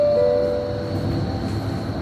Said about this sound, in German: U-Bahnhof Oranienburger Tor.